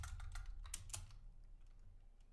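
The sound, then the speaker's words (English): Fingers type on a computer keyboard, searching for an NFL salary cap. A quick burst of faint clicking keystrokes is followed by a few sparse, quieter taps. “Let's type in salary cap”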